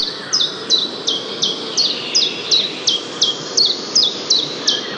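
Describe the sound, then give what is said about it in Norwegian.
A common chiffchaff sings a long, steady series of high, sharp notes. Each is a quick downward-sweeping chip, repeated at a regular beat over several seconds above a faint low background hum. “For det er gransangeren du hører da.”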